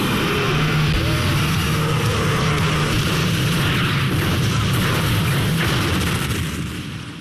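A car blown up by a lit explosive pack: a loud, sustained roaring blast with a heavy low rumble that holds for several seconds, then fades at the very end.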